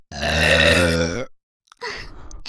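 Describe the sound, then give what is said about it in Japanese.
A long, drawn-out burp, voiced and rough with a low resonant tone, holding steady for over a second before cutting off, followed after a silent pause by a few faint scattered noises. “ゲップ出ちゃった。”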